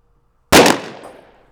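A single gunshot in a comedy skit, one sharp, loud bang that cuts in from silence and rings off in a decaying tail over about a second.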